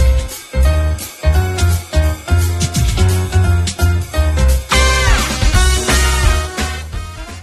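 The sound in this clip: Main theme music from a Yakuza video game plays loudly with driving drums, heavy bass and bright band tones throughout, with no voices.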